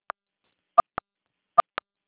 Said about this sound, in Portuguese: Tira o rosto do celular, está apertando os números.